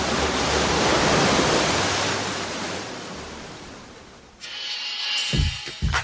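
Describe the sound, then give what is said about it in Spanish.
Surf crashes against rocks on a wild beach as a loud, continuous roaring wash that slowly eases over about four seconds. Brief, different sounds follow near the end. “Esta playa tiene toda la onda. Y es playa salvaje. Playa Salvaje, donde las rocas golpean al mar.”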